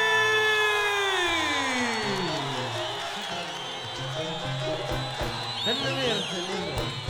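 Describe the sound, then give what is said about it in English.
A huge crowd of Moroccans cheers at the 2009 Essaouira festival, waiting for a local star of popular Berber (Amazigh) music. A loud voice rises over the start, then sustained whoops and shouts roll on throughout. “That's the sound of 100,000 Moroccans, and quite a number of them have turned out specially to hear a local star of a different kind of”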